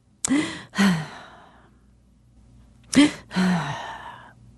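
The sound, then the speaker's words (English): A voice imitates a baby sighing, two sighs separated by a pause, each a quick sharp intake followed by a drawn-out, falling exhale. “Sighing. And babies sound, you know, really pretty much like we do. They go,”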